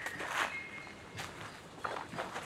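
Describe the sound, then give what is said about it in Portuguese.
Footsteps of a botanist walking through a forest in southern Chile: a few soft, crunching steps spaced unevenly, very faint and unhurried, with no voices. “Mais ou menos nessa época, 2013, mas a alguns milhares de quilômetros dali, no sul do Chile, o botânico Ernesto Gianoli estava caminhando por uma floresta.”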